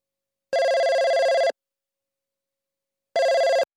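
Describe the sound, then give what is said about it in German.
Telephone ringing at the start of a phone call, in two bursts of bright electronic trilling: a one-second ring, a pause, then a shorter second ring. “Hendrik ruft Sachiko an.”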